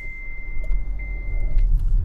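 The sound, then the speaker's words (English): A car drives around Future City with a low, steady rumble of engine and road noise, a thin constant whine riding above it and a few soft clicks. “So let's drive around a bit.”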